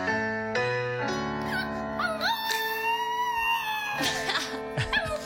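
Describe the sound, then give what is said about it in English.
A small dog howling along to a karaoke song, with long wavering and whimpering cries whose pitch slides up and down, sustained over several seconds. “she's got a little dog. His name is Leo, and I think he thinks he's doing the karaoke. Listen to this.”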